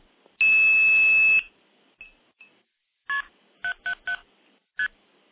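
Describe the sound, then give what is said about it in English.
Blue box tones dialing into a phone line over a direct SIP connection: a long, steady, high tone lasting about a second, two brief faint blips, then five short two-tone beeps, a single one, a quick run of three and a final one. “I do have a direct SIP connection into Telefreak that can be dialed using a blue box.”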